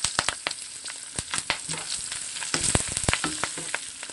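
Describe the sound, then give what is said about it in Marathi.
Green chili and turmeric frying in a pan with mustard seeds: steady hissing sizzle broken by many sharp crackles and pops. No one speaks. “त्यातच मिरची टाकायची आहे। अर्धा चमचा हळद,”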